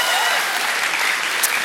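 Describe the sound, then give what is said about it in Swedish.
Applause from an audience: dense, steady clapping that stays loud and even for just under two seconds. “Det är också värt en applåd i så fall.”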